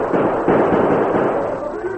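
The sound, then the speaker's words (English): Gunfire from a rider who has dismounted behind a sheltering rock and opens fire on pursuing horsemen: a dense, steady burst of loud crackling shots that run together with no clear gaps. “He swung from the saddle and opened fire.”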